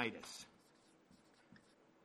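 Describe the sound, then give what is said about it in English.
Pen or pencil writing by hand, scratchy strokes that are loudest and busiest at the start and then thin out into softer, sparse scraping. “I'm writing downhill again, aren't I?”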